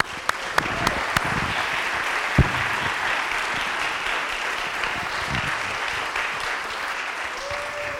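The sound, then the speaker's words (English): An audience at a Seattle Public Library event applauds to welcome the speakers: dense, steady clapping throughout, with a few sharper individual claps standing out near the start. “Before I turn this over to Karen to kick off the discussion, please join me in giving them a warm welcome.”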